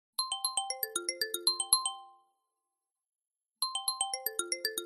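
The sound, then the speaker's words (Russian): Mobile phone ringtone ringing at night: a bright electronic melody of quick descending chime notes plays for about two seconds, pauses, then starts again. “Телефон вновь начал истошно звенеть”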